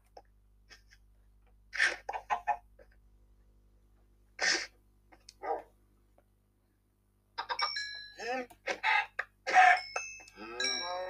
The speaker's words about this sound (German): Jetzt bin ich bei den Hühnern drinnen